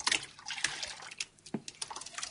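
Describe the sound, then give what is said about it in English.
Water sloshing and splashing as newspaper pulp, a thick grey paste from a blender, is stirred into water to thin it into a runny slurry; irregular wet bursts and trickles, fairly loud, with no voices. “Dave has a blender full of some kind of grey goo. Well, we now want to suspend those in water. At the moment, it's quite a thick paste, but we want to make it into a very, very thin, runny paste”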